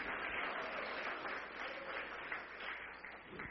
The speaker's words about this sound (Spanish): Dele palmas a Cristo. Dele gloria al que vive.